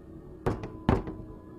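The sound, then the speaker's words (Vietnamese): Knocking on a door: two double knocks of dull wooden thuds, each pair a firm hit followed by a softer one, with a short gap between pairs. The knocks are moderate in level and heard alone over a faint low hum. “Đi được vài bước, bên tai bỗng nhiên vang lên tiếng gõ cửa.”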